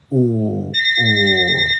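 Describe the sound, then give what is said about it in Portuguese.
A landline telephone rings in a house with an electronic ring in two bursts; bright high tones join halfway through and hold steady to the end. “tá tocando o telefone aqui na casa dos meus pais, você que tem saudade de um telefone tocar na casa”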